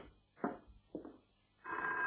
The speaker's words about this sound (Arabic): ردي على التليفون الاول.